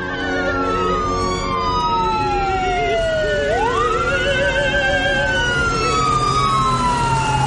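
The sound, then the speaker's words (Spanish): Wailing sirens of approaching fire engines, loud and continuous, with several overlapping siren tones; the main wail sweeps down, then climbs back up over a steady rumble of traffic. “Se acercan dos camiones de bomberos.”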